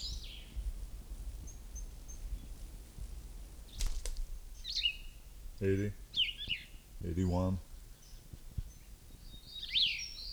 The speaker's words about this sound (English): This is bird number one again.